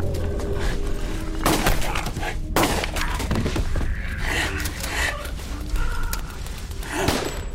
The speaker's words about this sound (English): I fired the shotgun until I had nothing left. Emptied my pistol.